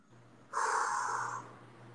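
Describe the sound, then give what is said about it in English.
One heavy, breathy exhale lasts about a second, loud and rushing, then trails off over a faint steady low hum, with no talk. “I'm exhaling for you.”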